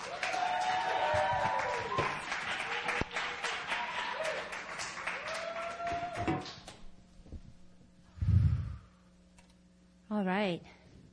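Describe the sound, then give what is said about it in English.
A church audience applauds to welcome a woman preacher to the pulpit at an evening service: dense, steady clapping with voices mixed in, fading out after about six seconds, followed by two short vocal sounds. “So let's go ahead and put our hands together.”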